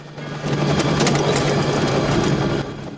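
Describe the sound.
A helicopter sits on an island landing site with its engine and rotor running: a steady mechanical whirring drone over a low hum that swells after a moment, holds, then eases near the end.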